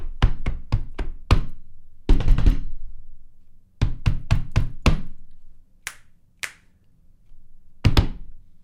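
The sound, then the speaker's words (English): Bongo hits: many sharp, dry taps in quick clusters separated by short pauses, some single strikes standing alone, with no voices. “These are all strategically placed bongo hits, by the way.”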